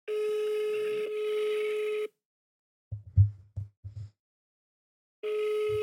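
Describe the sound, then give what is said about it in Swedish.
Ringback tone of an outgoing telephone call: a steady buzzing tone for about two seconds, a silent gap with a few faint low thumps, then the same tone returning. “Okej. Okay. Mm, vi testar att ringa nu.”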